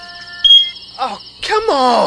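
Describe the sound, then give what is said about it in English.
Smoke detector chirping for a low battery in the middle of the night: one short, piercing high beep over a faint hum, followed by a groaning, exasperated voice. “it's your smoke detector battery dying at 3 a.m.”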